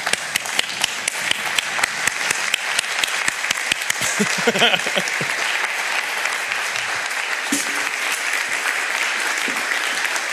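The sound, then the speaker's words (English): An audience gives a standing ovation to welcome two guests onto a stage: dense, sustained clapping from a crowd that lasts about ten seconds, with voices heard briefly near the middle. “Could we start out by giving them a standing ovation to welcome them on stage here as they're going to share with us?”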